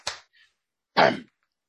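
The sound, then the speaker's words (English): Two sharp hand claps from one person, his signature clap, about a second apart, with a faint tick between them. “He claps and put it up right there. Yeah, that's the best. I keep hitting my microphone. Sorry about the background noise. Here we go. That's my iconic clap.”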